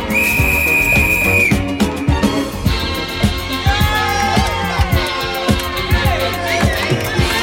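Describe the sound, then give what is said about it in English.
A high, steady whistle tone is held for about a second as part of a song in a DJ mix. It then gives way to a thumping dance beat with layered melodic parts. “I want to put whistles back in songs.”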